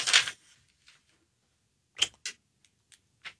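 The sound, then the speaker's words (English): Pen scratching on paper as a number is written down: an opening rasp, then a few short, dry, scratchy strokes separated by quiet gaps, faint and with no talk. “I'm going to write down a number”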